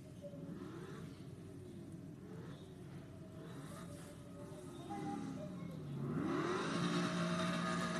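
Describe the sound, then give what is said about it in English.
A stock car engine drones faintly in a racing video game, with revs climbing in rising sweeps and growing louder toward the end. “Perfectly stop the car. Okay, now I'll drive it.”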